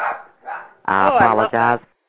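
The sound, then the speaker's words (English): Excited dog barking as a doorbell rings at home: a few loud, harmonic barks in quick bursts, following some fainter sounds. “The doorbell rang and the dog went wild.”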